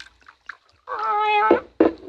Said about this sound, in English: Hush up, cat.